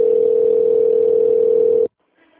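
A telephone call-connecting tone: one steady, mid-pitched hum holds for nearly two seconds, then cuts off abruptly into near silence.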